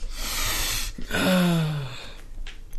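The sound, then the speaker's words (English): A forceful nasal snort as someone snorts a line of Pixy Stix powder, a long breathy rush followed by a loud, strained gasp whose voiced tone falls slightly before trailing off. “Let me just snort my line of pixie stick.”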